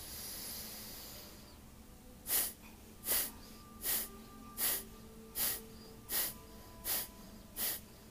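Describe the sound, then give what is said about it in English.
Rhythmic breathing during a guided breathwork exercise: after a soft opening breath, eight short, forceful, hissy exhalations follow at an even, quick pace, with no talk. “let's take a deep breath in together. Exhale through the mouth. We'll inhale to begin.”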